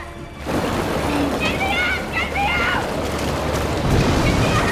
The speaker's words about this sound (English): In the room they left from, the water level is rising fast and pouring into the vent.